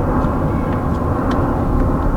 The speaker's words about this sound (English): So at certain times of day there's dense overflight of planes.